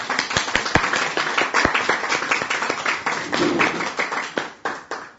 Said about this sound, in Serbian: I jedan aplauz molim.